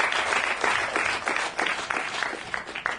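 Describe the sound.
Audience applause greets a comedian being welcomed onto a comedy show, a dense, steady wash of clapping that holds evenly for the full three seconds with no talking over it.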